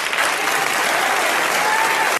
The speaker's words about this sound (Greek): Και από κάτω χειροκροτούν οι άλλοι.